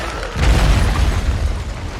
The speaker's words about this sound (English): Bond runs away as the building facade crashes onto the rooftop.